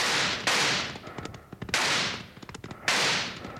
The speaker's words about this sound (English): Doggone it, now they're shooting at us.